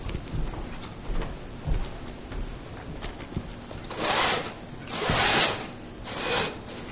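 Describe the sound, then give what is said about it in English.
A marker writing on a whiteboard during a lesson: soft rubbing at first, then a few loud, high, scratchy squeaking strokes in the second half. “Let me write some of this stuff on the word board just so you can see it.”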